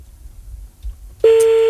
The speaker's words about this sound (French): On appelle grâce au numéro que vous nous avez envoyé sur le mail de Tof, toph@funradio.fr, 21h38. C'est parti.